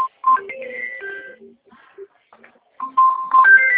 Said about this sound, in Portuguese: Sou eu ligando, pode atender.